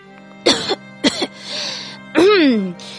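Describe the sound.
A man coughs twice in short, harsh bursts, followed by a brief, falling vocal groan.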